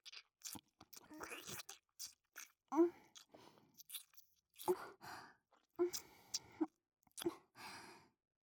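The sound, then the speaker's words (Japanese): Soft ASMR mouth sounds of lips gently nibbling the outer ear: faint moist clicks and crunchy little nibbles come in irregular bursts, with breathy sighs between them, all very quiet. “こうやって耳の外側を優しく唇で噛むようにしてあげれば、舐められてる人はリラックスできるし”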